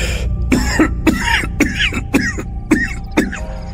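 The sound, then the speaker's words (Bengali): A man coughs violently in a rapid, harsh series of many explosive barks, loud and alone with no talk, each burst sharp and raspy. “কথা শেষ করতে না করতেই ভদ্রলোকের ভয়ঙ্কর কাশি শুরু হল।”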